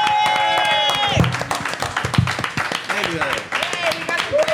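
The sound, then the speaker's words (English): Audience applause and cheering for comedians at the end of an opening segment: dense, steady clapping with high whoops and scattered voices mixed in, fairly loud throughout. “Give it up for everybody. Yay!”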